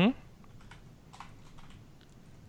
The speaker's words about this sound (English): Hang on, let me click, click, click.